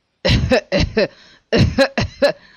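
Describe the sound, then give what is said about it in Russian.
Convulsive coughing from a man whose face is disfigured by a disease he caught, coming in two harsh bouts of several rapid coughs each, with a short pause between the bouts. “Он захлебнулся в судорожном кашле.”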